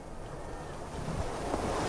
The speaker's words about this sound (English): That wind's still ruffling hard across the ground.